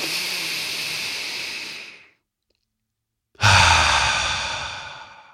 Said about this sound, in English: So now let's take a deep breath.